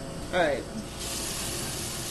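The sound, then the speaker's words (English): Water runs from a kitchen sink tap while hands are washed, starting about a second in as a steady, bright rushing hiss that continues evenly to the end. “First roll up my sleeve to wash my hands to be your sous chef.”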